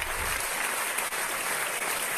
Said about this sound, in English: it's a long standing ovation